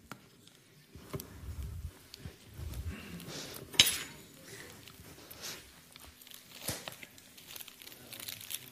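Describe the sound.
Cream being filled into piping bags: plastic crinkles and soft rustling with scattered clinks and scrapes of utensils, including one sharper clink midway.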